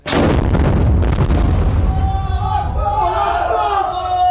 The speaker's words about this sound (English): Well, the fighting has been grinding on here since April, much of it unseen. But there is active firing taking place today.